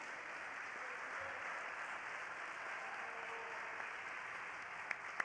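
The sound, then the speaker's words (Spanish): Applause rings out at a church worship service, a steady, dense clapping that holds at an even level for the whole stretch, with no voices standing out above it. “Dale aplauso a la gloria del Señor.”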